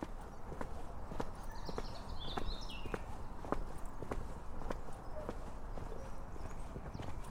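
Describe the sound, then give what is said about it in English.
Footsteps walking through woodland of tall beech, oak and pine, with deadwood scattered on the forest floor: many evenly paced crunching steps in a steady rhythm over quiet background noise. “On a break from writing this episode, I find myself walking through the woodland behind our house. There are tall beeches, oaks and pine trees. Pieces of deadwood are scattered around the forest floor.”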